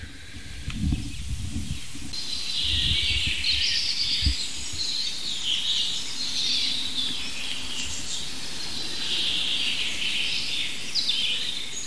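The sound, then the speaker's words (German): Chaffinch song picked up through a directional microphone beside a green wall of foliage: many bright, high chirping phrases repeat over a steady hiss, with some low rumbling near the start. “dem ersten Buchfink. Und wir werden uns mal von Fink zu Fink hangeln und gucken, was wir aus diesem Richtmikrofon rausholen können, technisch.”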